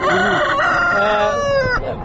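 Chickens at a poultry market, with a rooster crowing loudly in a drawn-out harmonic call over clucking that continues throughout.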